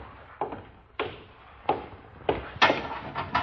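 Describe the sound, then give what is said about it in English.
A pinch bar forces open a locked cabinet with a series of sharp knocks, cracks and scraping strains at irregular intervals, growing louder and closer together toward the end. “Cabinet. Open it. It's locked. Open it. There a pinch bar? Here on the wall.”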